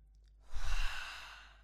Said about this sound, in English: through your nose and breathe out through your mouth. I will count for us while we breathe.